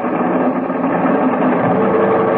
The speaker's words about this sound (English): All right, give me every last inch of manifold pressure. Those engines will take without burning up. Go ahead. Wide open, sir.